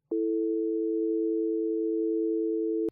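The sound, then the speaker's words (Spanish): A telephone line tone follows a hung-up call: one steady, unbroken electronic hum lasting nearly three seconds at constant loudness, framed by a faint click at the start and another at the end. “Lea escucha el sonido de la línea telefónica durante unos segundos”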